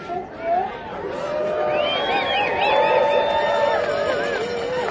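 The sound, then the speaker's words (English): Crowd of runners gathered for the Thanksgiving Turkey Trot Run in downtown Carbondale, more than 700 people, making a steady, dense babble of chatter with voices rising above it throughout. “Sounds from the Thanksgiving Turkey Trot Run in downtown Carbondale.”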